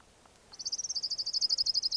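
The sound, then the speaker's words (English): Call of an orange ground warbler: a rapid, steady, high-pitched trill of evenly repeated notes that starts after a short quiet moment and runs on unbroken to the end. “Orange ground warbler number one.”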